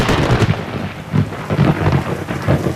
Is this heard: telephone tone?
no